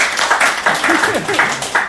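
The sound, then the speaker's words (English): A short burst of audience applause, lively clapping that rises and falls under a voice speaking throughout. “everyone, let's round of applause to Darius and Micah,”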